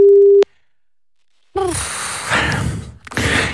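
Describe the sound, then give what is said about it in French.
A telephone call tone sounds while someone is being phoned: a single steady mid-pitched tone lasting under half a second, then a pause before other sounds follow. “on appelle Dylan, alors c'est parti.”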